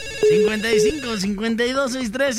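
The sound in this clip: A telephone ringing for an incoming call, a loud melodic ringtone of held notes stepping between pitches, running continuously for a couple of seconds.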